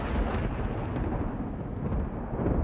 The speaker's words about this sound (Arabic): إيه ده؟ في إيه؟ ما تقلقوش، ده صوت البرق، إحنا متعودين عليه هنا.